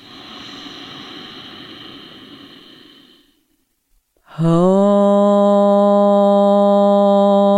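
Slow, deep breathing in through the nose during a yoga breathing exercise. The breathy airflow lasts about three seconds and fades out, then after a short silence a strong, steady, sustained harmonic tone begins.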